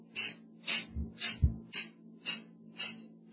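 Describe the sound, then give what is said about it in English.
Forceful cleansing breaths are pushed sharply out through the nostrils by pressing on the stomach under the ribs, making a steady series of about seven short hissing nasal bursts roughly half a second apart. “So what I'm doing is I'm just pushing underneath my ribs. I'm pushing on my stomach, and I'm forcing air out of my nostrils.”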